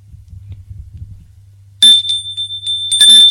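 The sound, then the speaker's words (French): A doorbell rings twice, each ring a bright metallic ding with a lingering tone, the second coming about a second after the first, over a faint low hum. “On sonne.”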